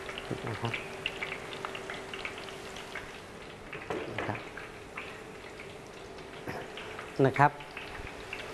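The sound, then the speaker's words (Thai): Banana slices frying in a pan give off a faint, steady crackling sizzle with scattered pops, along with a low constant hum. “เราสังเกตนะครับกล้วยที่เราทอดนะครับในกระทะนะครับก็จะมีลักษณะเป็นแผ่นนะครับ”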